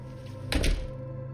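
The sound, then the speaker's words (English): A door shuts with a single short, solid thunk over a steady low hum, then the hum carries on alone without voices. “he quickly snakes through the door and closes it behind him.”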